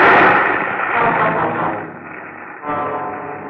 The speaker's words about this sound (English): Flames from the ditch shot into the air, devouring the ants by the millions.